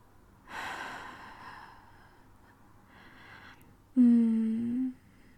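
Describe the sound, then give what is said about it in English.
Warm, close breathing in an intimate whispered setting: two soft, airy exhales spaced a few seconds apart, then a brief voiced breathy sound that sits louder than the breaths. “My warm breath on your neck as I”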